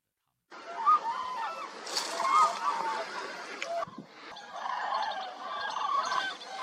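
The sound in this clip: Hundreds of cranes call at their wintering ground by the Nyang River, a branch of the Yarlung Tsangpo in Nyingchi, Tibet. Many high honking calls overlap in a continuous chorus that briefly dips before picking up again.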